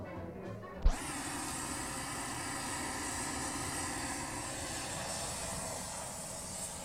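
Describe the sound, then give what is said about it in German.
An oxy-fuel welding torch lit with a brief pop, then burning with a loud, steady, roaring hiss that holds without a break. “Auch ein autogener Schweißbrenner? Ja, das ist ja das Schöne daran. Die Herren liefern uns auch noch das Gerät. Wir schaffen es ins Büro. Du zündest dein Gebläse an und...”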